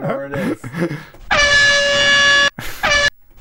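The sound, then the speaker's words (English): Air horn blasts after a stretch of talk: one long, loud, steady blaring tone of over a second, then a short gap and a second, shorter blast. “Got to do the air horn. Get my air horn out here.”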